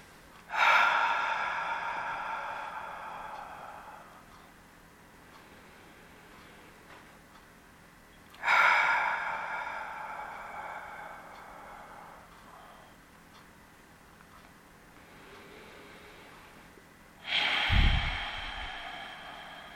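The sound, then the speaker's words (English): Three long, slow, deep breaths taken during a guided centering exercise. Each is a loud, breathy rush that tapers off over several seconds, evenly spaced with quiet stretches between them and no talking. “We're going to center ourselves by just taking some long, slow, deep breaths.”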